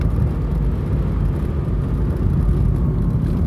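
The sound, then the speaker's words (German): A car drives through the small village of Nährlage toward Schüttorf, giving a steady, loud low rumble of engine and road noise that stays even throughout, with no voices. “Ich fahre jetzt hier gerade durch den kleinen Ort Nährlage”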